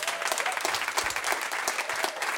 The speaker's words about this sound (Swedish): En applåd för Kirsty.